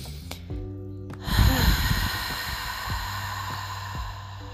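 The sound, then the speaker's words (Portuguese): A breath drawn in through the nose and released through the mouth during a guided breathing exercise, a soft airy exhale over quiet sustained tones. “Inspira pelo nariz. Ah, solta o ar pela boca. Só mais uma vez.”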